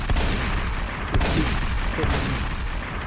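Gunshot sound effects play as three heavy booming blasts spaced about a second apart. A dense, noisy rumble fills the background throughout.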